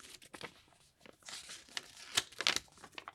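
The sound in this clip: A paper envelope is torn open at an awards announcement, with short, faint bursts of crinkling and ripping that end in a sharper tear.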